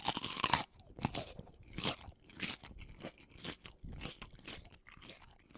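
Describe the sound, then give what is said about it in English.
Crunchy bites and chewing of a food with a honeycomb-like surface, resembling tripe: a run of sharp, crackling crunches in an irregular rhythm, fairly loud and heard alone without any talking. “Well, let's bite in.”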